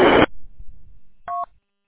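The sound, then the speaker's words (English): Telephone dialing for a call: a single short touch-tone keypad beep follows a brief, loud burst of noise and some low rumbling, then silence. “I got to make a phone call.”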